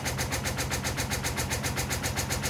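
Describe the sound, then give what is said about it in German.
A washer-dryer runs its spin cycle, giving a steady rumbling hum with rapid, even throbbing pulses. It is fairly quiet and unchanging, with no talk. “Genau, das ist jetzt das Schleudern. Ich weiß jetzt nicht genau, ob die noch mehr Gas gibt”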